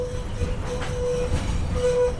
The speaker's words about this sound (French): un tram qui transporte trois citernes de 10 mètres cubes d'eau chacune